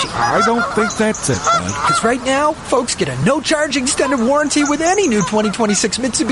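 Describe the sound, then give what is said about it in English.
Geese honk steadily throughout, as a migrating flock would, mixed under continuous loud talking voices. “Pretty sure it's geese, bud. Look, you can see them.”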